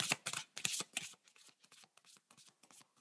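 Deck of playing cards being shuffled: many quick, crisp riffling bursts, faint overall, loudest at first and then softer, with no other sound.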